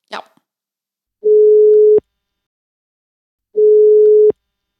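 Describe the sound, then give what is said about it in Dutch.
Ringback tone of an outgoing telephone call: a short click, then two steady, mid-pitched tone pulses of equal length, each followed by silence, in a slow, regular cadence. “Oké, let's do it. Eh, we bellen ze gewoon.”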